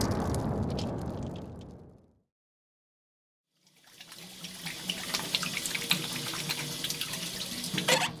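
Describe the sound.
Water runs from a sink tap as someone washes their face. A rushing stretch fades into a brief silence, then a steady, spattering flow returns and continues to the end.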